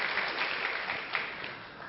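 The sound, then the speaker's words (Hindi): Audience applause as a continuous, dense wash of clapping from many hands, fairly faint and steady throughout, with no voices. “ताली तो बजाओ जरा”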